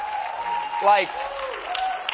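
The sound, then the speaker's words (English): Church audience clapping in praise for the sound team, a soft, continuous patter of many hands with a voice rising briefly over it. “And, man, can y'all just give your sound team a hand clap of praise?”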